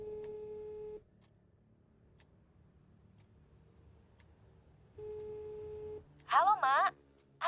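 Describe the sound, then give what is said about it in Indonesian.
Outgoing telephone call ringing on the line: two long ringback tones, each about a second, separated by a few seconds of quiet line hiss, then a short burst of voice at the end. “Nah, coba telepon Rika dulu lah.”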